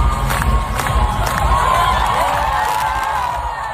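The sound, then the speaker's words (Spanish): A crowd on the steps of the Hungarian Parliament cheers, whoops and shouts, urging the new health minister to dance. The loud, continuous cheering eases off slightly toward the end. “El público que escuchamos que se lo pedía directamente que bailase, claro.”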